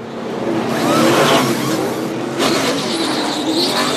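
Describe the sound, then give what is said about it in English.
NASCAR race cars during a pit stop make a loud, continuous engine roar that swells around the middle and surges again shortly after, with a gritty, revving edge. “During races, even pit stops now have a green touch.”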